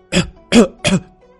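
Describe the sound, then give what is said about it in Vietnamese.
An angry old man coughs three times, short harsh throat-clearing bursts in quick, even succession, loud and alone. “Bàng Vạn Lý tức giận đến ho khan người.”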